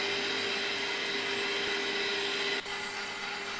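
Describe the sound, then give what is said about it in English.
An electric mixer whirs steadily while beating eggs into a dry mix, a constant motor drone with a sustained hum tone that dips briefly near the end before resuming at a similar level, no talking. “Once you see that the eggs are starting to get the dry mix well coated, you can raise the speed of your mixer.”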